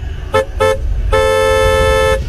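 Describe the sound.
A car horn honks loudly: two short blasts in quick succession, then one long, sustained blare lasting about a second.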